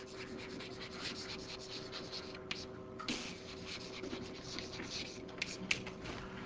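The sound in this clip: Scratchy strokes of drawing on a board during a physics lecture: a steady, fairly quiet rubbing and scraping texture broken by a few sharper clicks and taps.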